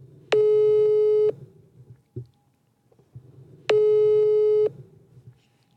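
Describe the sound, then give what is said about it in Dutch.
Telephone calling tone heard while phoning someone: two steady, mid-pitched tones, each about a second long, separated by a few seconds of near silence with a faint click in the gap. “we hebben gevraagd of we haar even kunnen bellen. En we gaan even kijken of ze kan opnemen.”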